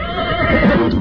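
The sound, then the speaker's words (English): A horse neigh sound effect, one loud, brief whinny lasting about a second and heard alone. “as soon as they say her name, somewhere in that box, there's a sound of a horse.”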